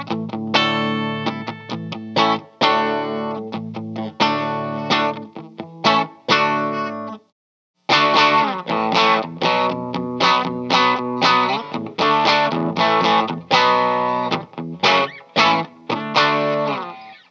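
A hollow-body electric guitar with no F-holes and a bound neck, its tone set fully trebly, plays a run of bright, twangy chords with crisp strums, broken by one brief pause partway through.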